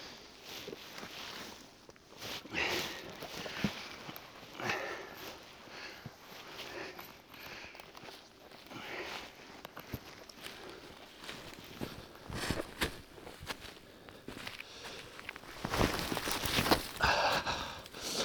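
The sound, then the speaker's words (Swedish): Footsteps jump from one boulder to another across blocky, rocky terrain, giving faint, irregular thuds, scrapes and rustling that grow louder near the end. “får jag hoppa från ena flyttblocket till det andra.”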